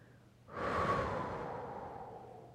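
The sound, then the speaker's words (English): A long, breathy exhalation voiced as a soft "hu", the spleen sound of a traditional Chinese medicine breathing exercise. It swells quickly, holds for about two seconds and slowly fades. “So, you can exhale that toxic gray smell with the sound hu.”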